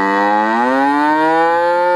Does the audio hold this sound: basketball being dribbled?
no